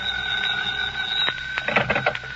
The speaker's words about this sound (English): When I got there, the phone was ringing.